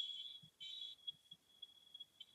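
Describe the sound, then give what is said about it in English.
A smoke alarm goes off while someone cooks at home: a faint, steady, high-pitched electronic tone with a few brief, louder pulses. No one talks. “Is that the fire alarm? The smoke alarm? Here, that's a fire alarm.”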